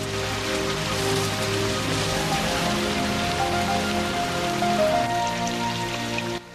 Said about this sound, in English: they walk off through the pouring rain